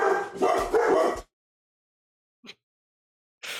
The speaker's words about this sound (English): technical difficulties, also known as dogs barking. Yes, I don't know why they're barking.